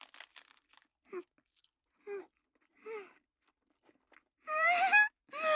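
Hand-rolled salmon sushi is chewed, with faint crunchy bites at the start. Three short voiced hums come at even intervals, then a longer, louder vocal sound near the end.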